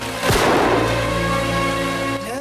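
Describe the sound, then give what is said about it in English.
A pistol fired at a police line during a town standoff: one loud, sharp blast early on, followed by a long, ringing tail that fades slowly. “walks forward to the police line, firing a pistol.”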